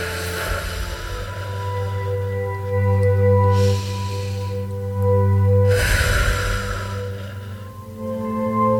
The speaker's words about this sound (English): that's all we're going to do for the next couple minutes is literally breathe in through the nose and out through the mouth